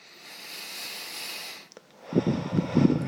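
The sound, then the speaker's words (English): A deep breath drawn in as a long, steady airy hiss lasting about a second and a half, then a brief pause and a lower, breathier release with soft puffing bursts. “let's begin by taking a deep breath.”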